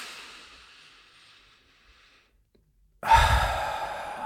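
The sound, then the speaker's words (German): Deep breathing during a guided relaxation exercise: a soft breath fades away into near silence, then a loud, full breath suddenly starts and continues to the end, with no talking. “Als erstes nehmen wir mal 2 tiefe Atemzüge gemeinsam in diesem Moment.”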